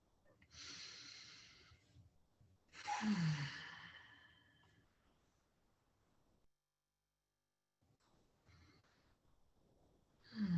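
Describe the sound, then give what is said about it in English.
Deep, airy breathing during a group breathing exercise: two long, breathy inhale-exhale sounds, the second one louder, then softer breathing that fades into a short silence before more quiet breaths. “Let's have a deep breath in and gently close our eyes for a moment and center before”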